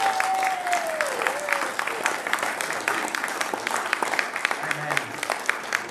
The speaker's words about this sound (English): So give Patrick another hand.